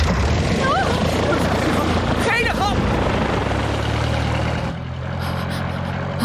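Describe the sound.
An aircraft engine, started with a switch and a red handle before flight, roars loud and steady throughout, easing slightly near the end, while people talk over it.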